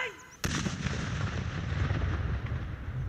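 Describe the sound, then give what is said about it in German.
A controlled detonation of found landmines and unexploded bombs: one sudden, loud blast that rolls on into a long, heavy rumble, which fades only slowly. “Am Ende werden alle Fundstücke aus sicherer Entfernung gesprengt.”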